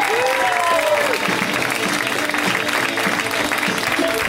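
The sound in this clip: Applause from a comedy show audience welcoming a comedian onto the stage: dense, steady clapping that holds at an even loudness for about four seconds.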